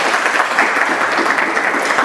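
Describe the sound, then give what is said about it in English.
Loud applause from a lecture audience welcoming a speaker on how to achieve real happiness, a continuous crackle of many hands clapping at a steady level. “So please clap for him.”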